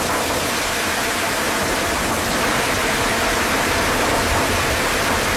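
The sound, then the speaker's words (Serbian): Rain drumming on a window or roof gives a steady, dense hiss that holds an even level throughout, with no single drops standing out. “recimo kada dobuje kiša po prozoru ili na krovu.”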